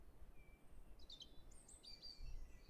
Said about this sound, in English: You hear those birds chirping?